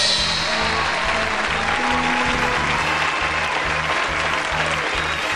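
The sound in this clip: Sustained audience applause welcomes the hosts of the third annual Squirrelly Awards, an awards show for favorite board games. The dense clapping is steady and loud from start to finish, with no breaks.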